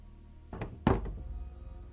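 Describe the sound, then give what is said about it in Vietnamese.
Muffled knocking on a door late at night: a few dull, soft thuds close together, faint against a quiet background. “Tiếng gõ cửa vang lên trong đêm nghe rõ lắm.”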